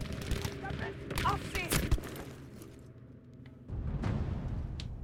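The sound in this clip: Gunfire in the video game Battlefield V: a busy volley of sharp shots and crackling bursts builds over the first two seconds to a loud bang, thins briefly, then a steadier rumble of firing resumes.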